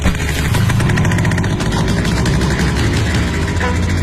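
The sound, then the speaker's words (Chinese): Steady motorcycle engine of a red Toyota running during a police pursuit, a loud low rumble that holds without a break for the whole clip. “拦截一辆由西向东的红色丰田摩托，拦截一辆红色的丰田摩托。”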